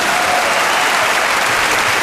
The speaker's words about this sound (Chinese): 好，朋友们，掌声。